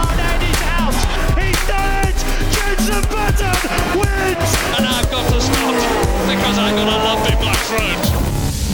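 Race car engines roar at the start of a race, a loud, continuous wall of overlapping high whines that repeatedly climb in pitch as the cars accelerate.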